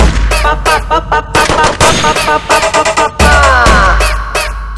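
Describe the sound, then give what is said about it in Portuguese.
AK rifle gunfire used as a sound effect in a music track, fast strings of sharp, loud shots over a heavy bass line with a vocal line running through. “tem piranha pra todo lado, vou começar a atirar. De AK, de AK, pa pa pa pa pa pa pa pa pa pa pa pa pa.”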